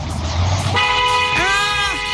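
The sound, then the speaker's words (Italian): A car horn honks in traffic during a near-miss, a sustained, steady tone that starts partway through. A second bending blast overlaps it above a constant rumble of road and engine noise. “Claxon.”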